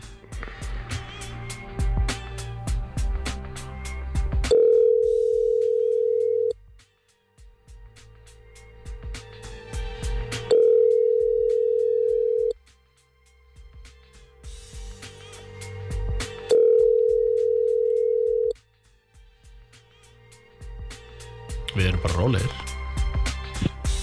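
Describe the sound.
Ringing tone of a telephone call being placed: three steady mid-pitched tones, each about two seconds long, at regular intervals, with voices and background sound in the gaps between them.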